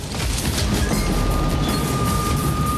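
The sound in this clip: A moving train rumbles and rattles in a continuous loud roar, with a thin steady high whine running through it and no voices.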